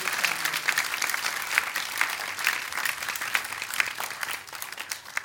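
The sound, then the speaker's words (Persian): Applause from a crowd at a devotional chanting gathering, with dense, steady clapping that keeps an even level for about five seconds and no distinct voices. “بزن یه دست قشنگ. باریکالله.”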